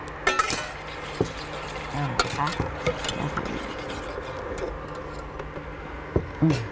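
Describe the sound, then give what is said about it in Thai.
Stirring as the poured-in oil phase is mixed into a warm cream base in a pot at about 70 to 75 degrees, with a few scattered light clinks and ticks over a steady low background. “แล้วก็จะเทพาร์ทน้ำมันนะคะเทลงไปเลยค่ะอาจารย์คนได้เลยค่ะ”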